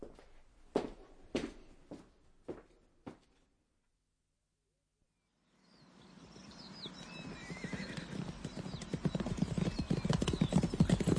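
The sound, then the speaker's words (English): Horse hooves clip-clopping in a few hollow, separate beats, followed by a silent pause and then a rising, noisy rush of sound. “Whose horse is that?”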